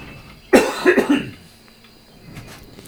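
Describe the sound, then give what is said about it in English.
A cough from across a studio: one sharp, loud burst followed by a few rougher, throaty bursts in quick succession, then fading into quiet room noise, with no talk. “I love how when I cough, like on the other side of the studio, this microphone still picks it up.”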